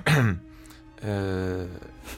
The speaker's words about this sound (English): you see, you don't give me water and I stop coughing.